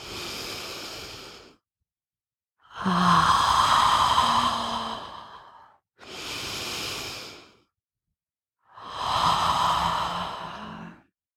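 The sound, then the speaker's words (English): Deep cleansing breaths drawn in and let out during a guided breathing exercise: four long, airy breath sounds, each a few seconds long and separated by short silences, with no talking. “Take three nice deep cleansing breaths all the way down to the womb. Exhaling, letting out.”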